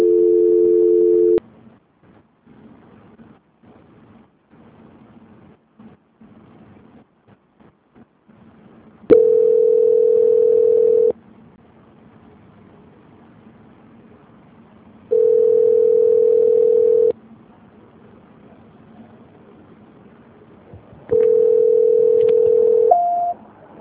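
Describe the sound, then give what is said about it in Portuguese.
Telephone line tones after a dropped call: a brief two-pitch tone opens, then three steady mid-pitched tones of about two seconds each, separated by long stretches of faint line hiss and clicks. The last tone ends with a short higher beep. “Só um minutinho que caiu a ligação, tá?”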